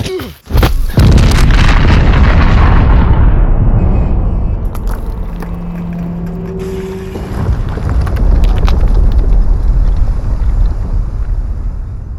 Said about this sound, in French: Ça va exploser!